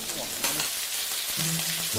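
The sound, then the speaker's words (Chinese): Loud, steady sizzling as ciba chili paste goes into hot oil, a mix of plain oil and red chili oil, with dense crackling frying noise throughout. “热锅中下入冷油，再加入糍粑辣椒的红油，混合两种油，一来提香，二来增色。油热后加入糍粑辣椒。”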